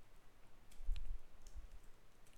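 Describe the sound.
Someone types on a computer keyboard, producing a few soft, irregular key clicks against a quiet background.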